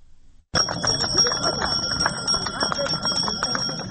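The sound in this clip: Handbell rung by a small child for the first school bell on the opening day of school, starting abruptly after a short silence into a continuous, bright metallic jangle of rapid strikes that stays loud and steady to the end.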